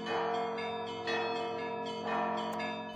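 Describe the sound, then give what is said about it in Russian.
Church bells of the Annunciation Church ring with a rich, sustained humming tone, the large bell of St Isaac's Cathedral booming beneath the smaller bells; faint and steady, swelling with a few fresh strikes. “Звонкой трелью заливались колокола Благовещенской церкви, торжественно гудел и заглушал малые колокола большой колокол Исаакиевского собора.”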